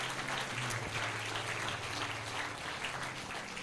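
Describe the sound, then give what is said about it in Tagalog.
A church audience applauds: a continuous, even wash of clapping that fills the whole clip at a fairly faint level. “palakpakan naman natin ang Panginoon po dyan”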